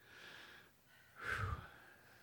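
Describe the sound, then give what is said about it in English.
A single deep breath drawn in during a sermon: one breathy rush of air, about half a second long, swelling and then fading, with faint hiss before and after. “Let's all just take a deep breath.”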